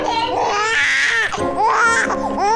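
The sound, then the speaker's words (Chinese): An infant cries in strained, wavering wails that stay loud throughout while a father talks over it, trying to calm the baby. “爸爸在呢，不哭了啊！”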